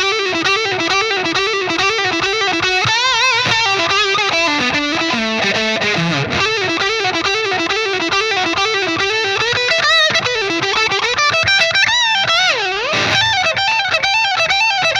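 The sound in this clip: Distorted electric guitar lick at a moderate, steady tempo, a heavily overdriven riff repeated in a chugging pattern, loud and continuous throughout with no voices.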